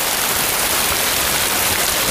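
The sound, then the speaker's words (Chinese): Steady rain falls outdoors, a continuous, even hiss of drops with no breaks and no talk over it. “这外头下雨天的， 要不怎么叫赏雨呢？”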